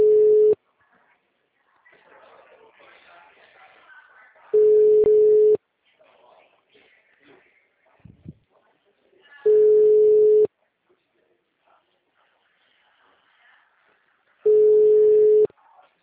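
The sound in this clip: A telephone line tone on a call sounds as four one-second beeps at an even low-mid pitch, spaced about five seconds apart. Faint talk murmurs in the gaps between beeps.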